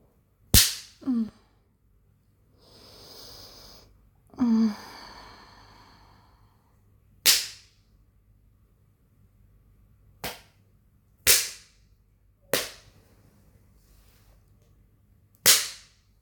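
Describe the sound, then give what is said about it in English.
A person spanking themselves with a leather implement gives about eight sharp, isolated smacks spread out with pauses. Soft breathy sighs fill some of the gaps between the early strikes. “Do you like the way it sounds when I spank myself?”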